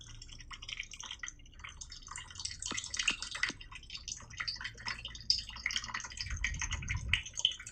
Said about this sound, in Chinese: 我们用水冲一冲啊。